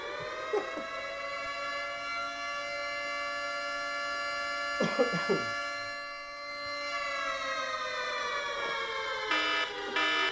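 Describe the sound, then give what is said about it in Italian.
A siren wails with a steady, sustained tone throughout and dips slightly in pitch toward the end. A few brief knocks sound midway. “Facciamo partire la sirena. Facciamo partire la sirena.”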